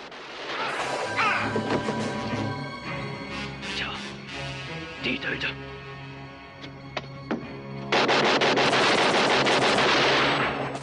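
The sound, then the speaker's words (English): Gunfire as a guard in a hut window is shot: scattered sharp cracks and bangs, then a loud, dense burst of rapid shots running to the end. “Mazzilli and Braddock hair up the slope towards the hut as Yin continues to fire. Opelka pops up under the hut's balcony and shoots the guard in the window.”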